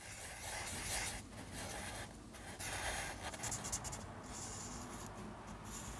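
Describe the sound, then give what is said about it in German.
Faint, continuous scratching and rubbing strokes of drawing a sketch on paper, a study of a skeleton found on the beach, with no talk over it. “Ich mache jetzt eine Zeichnung von das Skelett, was ich gefunden hatte in, am Strand.”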